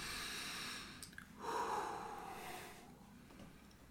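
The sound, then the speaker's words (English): A voice imitates a sharp inhale: one breathy, hissing rush of drawn-in air lasting about a second, with faint background noise before and after. “you hear her inhale, like...”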